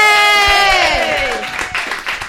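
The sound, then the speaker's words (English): Crowd applause and cheering welcoming comedian John Hodgman on stage, opening with a long, falling whoop from the audience that gives way to loud, steady clapping and scattered shouts. “Please put your hands together for Mr. John Hodgman.”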